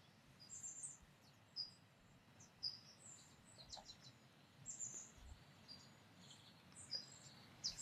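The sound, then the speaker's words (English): Birds chirp outdoors, many short, high chirps scattered over a faint, steady hiss, all quiet. “I just felt the need to take a pause and tune into the birds chirping. Oh my gosh. I hope y'all can hear that on the podcast right now.”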